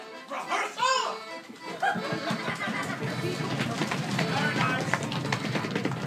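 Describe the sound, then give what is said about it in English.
Many children pound their feet on the floor during audience participation at a live accordion performance, making a dense, sustained thundering rumble. Children's laughter and voices come first, then the stomping holds steady to the end. “Every time Lemony Snicket tells the kids to run, they pound their feet on the floor with a fury and vengeance.”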